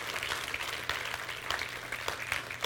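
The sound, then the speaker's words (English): Applause from a church audience, a dense, even patter of clapping that holds steady for the whole stretch at a fairly low level, with no talk over it. “For everyone who raised your hand, can we put our hands together?”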